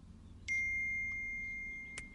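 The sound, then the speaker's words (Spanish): A bright notification chime rings out as a clear, high ding that holds and slowly fades, with a softer second ping near the end; no talk. “Y llegó la notificación.”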